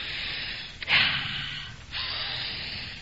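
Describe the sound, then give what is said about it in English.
Deep breaths of fresh air drawn by a person, long airy hisses of breathing interrupted by a sharp snorting gasp, with no speech. “First, a few deep, deep breaths of fresh air.”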